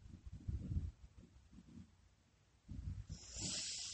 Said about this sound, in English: We are going to come back now with 3 calming breaths.